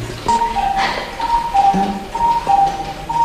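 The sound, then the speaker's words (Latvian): A cuckoo clock calls in a clock exhibition, with repeated two-note descending cuckoo calls ringing out clearly, roughly three and a half times, over a steady background of ticking and faint clicks. “Te mums tā dzeguze fonā dziedāja, vai ir ziņas, kāpēc tieši dzeguze un kad parādījās pulkstenis ar dzeguzi?”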